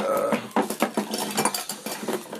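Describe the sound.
A knife digs something out of a container, making a series of irregular metallic scrapes and clinks, fairly loud and with no other sounds.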